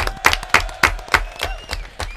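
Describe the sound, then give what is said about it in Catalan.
Applause for a correct answer in a guessing game, heard as a steady run of sharp, evenly spaced rhythmic claps over a faint sustained tone. “Un aplaudiment, molt bé.”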